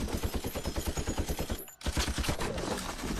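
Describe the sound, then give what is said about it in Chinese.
Machine gun firing in rapid, sustained bursts during a battle. The loud, even rattle of shots breaks off for one brief pause, then resumes. “贵方接过机枪奋力扫射敌军，敌军一一命中。”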